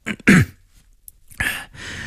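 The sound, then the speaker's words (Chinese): A man coughs and clears his throat in a couple of rough, breathy bursts separated by a short pause. No one speaks. “卢文蔚才咳嗽一声”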